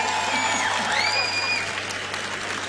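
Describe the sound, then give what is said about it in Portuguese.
Dense, steady applause from a concert audience, a continuous wash of many hands clapping that holds at an even loudness throughout and eases slightly toward the end. “uma salva de palmas já para vocês.”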